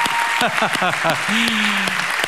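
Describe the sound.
Applause from a church audience for the fathers standing, with crisp individual claps punctuating the sound and excited shouting voices rising over the clapping.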